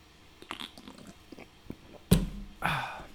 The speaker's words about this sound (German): Und zum Abschluss nehme ich mir jetzt nochmal einen Schluck Monster.